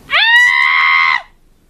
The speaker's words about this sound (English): The weekly scream of relief.